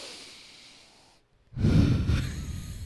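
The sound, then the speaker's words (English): A deep breath follows a brief hush. The long, loud, airy rush of air carries heavy low rumble and lasts more than a second, with no talk over it. “Let's breathe for a second. Deep breath.”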